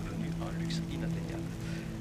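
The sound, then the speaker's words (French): Rain falls steadily over a city, a continuous even hiss of drops with a low, constant hum underneath. “Il pleut. C'est bien.”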